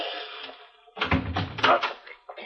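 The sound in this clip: Heavy pounding on a front door: a few dull, forceful thuds packed into about a second, loud against a quieter lead-in.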